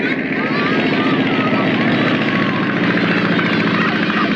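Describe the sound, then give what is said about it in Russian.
A plane's propeller engine roaring as the aircraft takes off from a village, a loud, dense, unbroken drone with a fast rhythmic pulsing throughout. “Самолет заводится и взлетает.”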